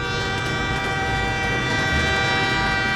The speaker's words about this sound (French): comme ce train qui roule sur ses rails de façon constante sans à-coups.